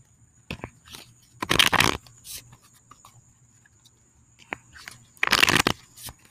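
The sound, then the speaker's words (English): Tarot cards are shuffled outdoors in two main crisp riffling bursts, with softer rustles and light taps between them. “Ooh, cards trying to fly out.”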